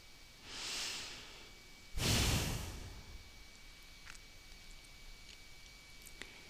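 Slow, soft breathing during a guided relaxation: one gentle inhale, a pause, then a longer, heavier exhale, all faint against a quiet background.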